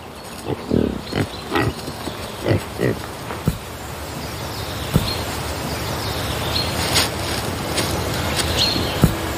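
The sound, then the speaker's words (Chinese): Grunting of a wild boar in wild mountain country: a run of short, low, rough grunts in the first few seconds, then a steadier background hiss with a few scattered clicks. “野猪同样也有着自己的领地意识。”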